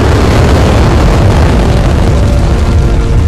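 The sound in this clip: Rocket lifting off with thrusters at full power, a loud, dense, continuous roar spanning deep rumble to hiss, steady in level throughout without pauses or voices.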